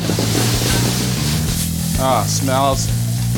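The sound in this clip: Meat sizzles in olive oil in a hot kitchen pan, a steady, dense hiss that continues throughout while someone talks over it.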